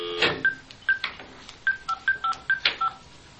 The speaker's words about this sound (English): Now it's a regular phone number. Phone dial tone. Sweet. So I'll dial